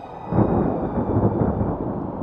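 Thunder rumbles during a storm as a deep, steady roll that stays low and heavy without sharp cracks.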